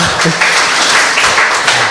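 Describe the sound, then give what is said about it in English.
An audience claps loudly and steadily in dense applause, the sound swelling and dipping slightly but never pausing. “she should be the one to have the applause.”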